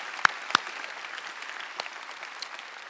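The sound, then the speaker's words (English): A church audience applauds with a faint, steady patter of many hands, and a couple of sharp, louder claps stand out near the start. “And all the people watching online, let's give all those people out there a big hand.”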